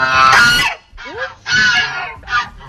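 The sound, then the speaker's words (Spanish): Geese honk in a short series of loud, harsh, nasal calls. About four separate bursts are heard, some with a quick upward squeal, and no voices. “sean las ocas, que resulta que son las encargadas de dar el aviso si pasa algo extraño a su alrededor”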